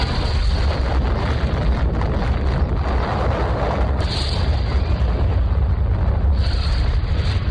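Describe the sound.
An atomic bomb explosion over Hiroshima, from a 4-ton bomb bursting at 1,850 feet, heard as a loud, continuous, deep rumbling roar that holds steady without pauses from start to end.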